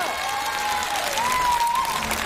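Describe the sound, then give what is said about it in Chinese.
Crowd applause at a live show, a dense, steady wash of clapping that holds evenly throughout, with a faint whistling tone gliding over it. “掌声。”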